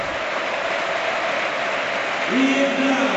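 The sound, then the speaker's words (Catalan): Crowd applause at a Villarreal football match, greeting substituted players coming onto the pitch: a continuous, broad wash of clapping and crowd noise at steady loudness. “Pues bueno, doble cambio en el Villarreal. Entren aplaudidos para Sorlot,”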